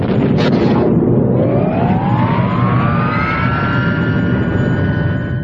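Spaceship thrusters fire with a loud, continuous roar. A whine sweeps upward in pitch over the first few seconds and then holds steady to the end.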